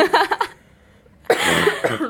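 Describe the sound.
Coughing from someone who is ill and congested: a few rough, loud coughs in a quick cluster, a brief pause, then a longer harsh, breathy burst.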